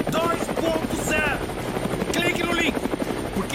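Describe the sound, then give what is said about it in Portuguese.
A helicopter runs with its engine on, giving off a steady, loud whirring drone throughout, while a voice talks over the noise. “a gente tem que fazer um take com o helicóptero ligado. E a minha voz tem que ficar em cima do helicóptero”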